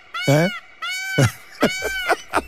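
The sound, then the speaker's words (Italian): A person's voice imitates a peacock's call: a few loud, harsh, nasal honking cries, each with a sharply falling pitch sweep, separated by short gaps. “Belli i pavoni, per carità, però c'hanno quel verso disgraziato che è una cosa quasi da film dell'orrore.”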